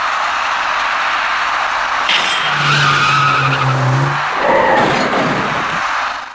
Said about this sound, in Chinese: 驾驶这辆白色小客的司机显然没有注意到前方路面上摆放的三角警示牌，车身将三角警示牌撞翻后，又撞到了那辆银色小客的车尾部。